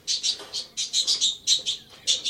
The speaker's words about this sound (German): Du sag einmal, ist das ja wirklich dein Vogel? Ja, das ist er.